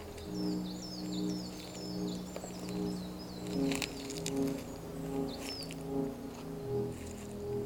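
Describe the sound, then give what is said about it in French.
Soft bird chirps: quick, high, twittering calls repeat throughout, with a steady low droning hum and faint rustling underneath. No one speaks. “Et le silence, à peine voilé par les doux gazouillis des oiseaux.”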